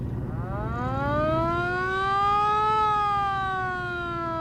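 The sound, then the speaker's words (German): A police car siren switched on while driving through traffic gives a loud wailing tone. It climbs steadily in pitch, holds high, then dips slightly, sounding alone without talk. “Verdammt, dieser Verkehr. Ich schalte besser die Sirene ein.”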